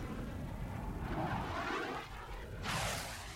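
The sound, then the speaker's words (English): Aircraft pass overhead as a faint, steady, low roar that swells and brightens briefly toward the end, with no voices over it. “Some aircraft are passing overhead. They're surveilling us.”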